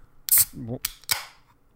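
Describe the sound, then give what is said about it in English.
Sharp cracking pops of a tall drink can being opened, a few short bright bursts with a brief low voiced sound between them. “Gotta rip it, my boy. I just cracked open a big, tall can of Critics Corner.”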